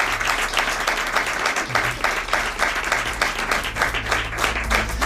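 Dense applause from an audience thanking radio colleagues, steady and loud clapping that runs unbroken from start to finish over a low hum.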